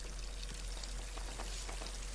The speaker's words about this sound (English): Getting drenched by four small water leaks